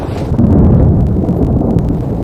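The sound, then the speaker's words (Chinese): Thunder from a storm rolls as a deep, loud, continuous rumble that holds steady for about two seconds with no voices. “你看这电闪雷鸣的，这雨肯定会下挺大吧？”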